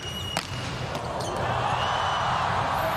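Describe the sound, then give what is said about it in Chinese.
A volleyball serve scoring an ace in a final between the USA and Poland: one sharp smack of the ball, then a loud, steady crowd roar that swells and holds. “哈内斯发球直接得分，”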